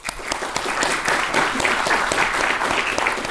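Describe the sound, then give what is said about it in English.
Audience applause at a history lecture event, a steady patter of many hands with sharp individual claps standing out, continuous and without voices. “So let's give them all a hand.”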